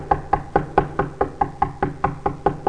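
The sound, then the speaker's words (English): Someone knocks on a door: thirteen firm, evenly spaced knocks in a steady, unbroken rhythm, heard alone. “just keeps knocking and knocking.”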